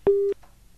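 A single short telephone line tone as a phone-in line connects the next caller. It is a brief, steady, mid-pitched beep, heard alone.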